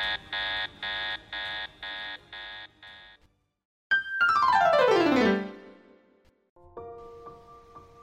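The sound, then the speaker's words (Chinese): An electronic high-temperature warning alarm in a firefighting scene: a run of rapid, even beeping pulses, then a loud siren-like sweep falling steeply in pitch, ending in steady repeating tones. “高温警告，高温警告，高温警告，高温警告。”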